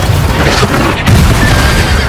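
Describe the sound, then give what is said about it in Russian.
A horse rears and neighs amid an exploding shell on a battlefield beside an artillery gun with its harnessed team. A loud, dense roar fills the whole two seconds without a break. “Разрыв поднимается рядом с Агарковым. Конь встает на дыбы, Агарков падает.”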